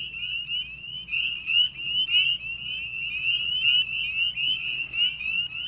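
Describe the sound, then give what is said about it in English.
Spring peeper frogs calling in Mississippi: many shrill, high-pitched peeps repeat in a dense, steady chorus over a faint low background rumble. “Now, that's a fairly common sound here in Mississippi in terms of frogs. What's that we just heard? Indeed, that's one of the most common sounds you can hear this time of year. That's the spring peeper.”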